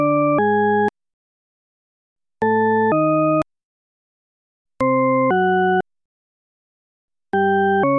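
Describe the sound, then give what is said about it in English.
Four pairs of synthetic tones for the tritone paradox, each pair two rich, organ-like steady tones a tritone apart. Short silences separate the pairs, and the direction between the tones is ambiguous. “What you're hearing is Diana Deutsch's tritone paradox.”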